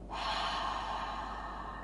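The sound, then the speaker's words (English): A deep belly breath during a breathing exercise, one long, soft, airy breath that rises quickly and holds steady on its own. “I want you to breathe into your belly and then release it.”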